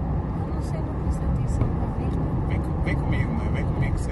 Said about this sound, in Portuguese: Eu tô dirigindo aqui, o caminho do ex.